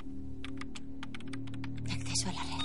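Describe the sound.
Quick keyboard typing on a computer, many crisp clicks in uneven bursts over a low, steady hum, growing busier and noisier toward the end.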